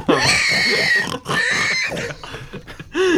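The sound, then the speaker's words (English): Pig oinking sound effect: a few loud, harmonic oinks and grunts in separate bursts with short pauses between them, heard alone without talk. “I'm just surprised that like they just had pig noises like ready.”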